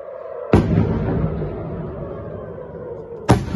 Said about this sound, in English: we suddenly hear a series of booms.